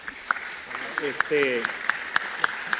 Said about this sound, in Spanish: Fuerte el aplauso, ¿verdad?